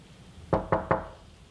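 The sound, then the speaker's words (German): Three firm knocks strike a door in quick, even succession, sharp and clear against a quiet background. “Peter klopft doch nicht”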